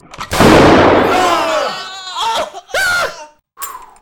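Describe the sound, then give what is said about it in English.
A single loud shotgun blast booms and then decays slowly over about a second. Voices cry out and call afterward in a few short bursts. “I've got a shotgun in my hand. Off you go.”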